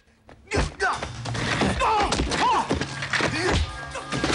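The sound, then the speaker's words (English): Kicks and blows landing in a fistfight between two men: several dull, heavy thumps and thuds mixed with grunts and strained vocal sounds. “Jackie winces from a blow to his crotch, then kicks the Russian who blocks his blows.”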